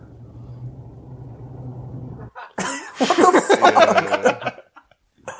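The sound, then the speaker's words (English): Low, steady rumble of a car driving, faint and even for about two seconds before loud, abrupt vocal bursts like laughter or coughing take over. “He's not saying anything. It's just like driving noise.”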